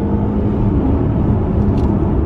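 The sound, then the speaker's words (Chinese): A Mercedes S400L accelerates at full throttle, giving a loud, steady, low engine and road rumble with no talking. “然后我一脚油门踩到底，四十、六十、八十、一百。”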